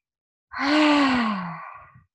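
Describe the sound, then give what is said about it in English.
A voice imitating deep breathing with sound, as done in a breathing exercise while circling the spine: one long voiced, sigh-like exhale that slowly falls in pitch and fades out. “when you circle your spine, inhale as you come forward and exhale back onto your sit bone, but you're going to do that with sound. So it sounds like this.”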